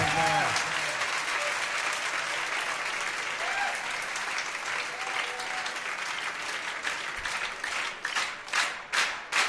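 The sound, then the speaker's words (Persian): An audience claps loudly and steadily for several seconds, with a voice heard over the opening. Near the end the clapping shifts into a rhythmic, unified beat. “حالا یک کف خوشگلم بزنید”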